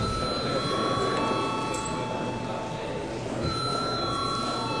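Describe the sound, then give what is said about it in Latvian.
An electric bell rings in a parliament chamber to call members in, a steady, sustained ringing that holds at an even level across the whole clip. “Paldies, lūdzu zvanu.”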